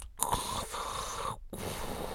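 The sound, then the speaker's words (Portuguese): A voice imitates wheezy, congested breathing through one blocked nostril, making a continuous raspy hiss with two brief breaks. “Só tenho uma narina, entro com uma narina e já não estou a respirar. Fico a respirar tipo.”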